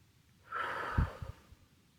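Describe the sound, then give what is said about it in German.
A deep breath drawn in through the nose and let out through the mouth: a single soft, airy rush followed by a few low puffs, faint and alone. “Atme noch einmal tief durch die Nase ein und durch den Mund wieder aus.”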